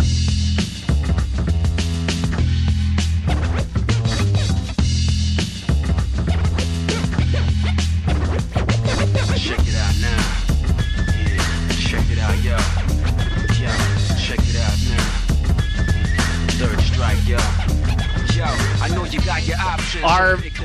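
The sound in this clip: Character selection screen music from the Street Fighter video game plays loud and dense throughout, a busy, steady arrangement with a driving beat and layered melody that never drops out.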